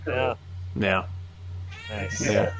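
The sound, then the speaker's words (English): A cat meows a few times in short, drawn-out harmonic cries separated by brief gaps, over a steady low hum. “The cat approves.”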